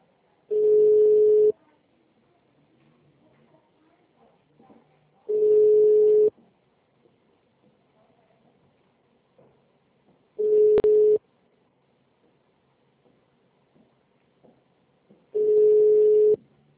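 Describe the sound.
Telephone ringback tone heard while placing a call: four steady, mid-pitched tone bursts, each lasting just over a second, separated by long silent gaps in an even rhythm, with faint background noise between them.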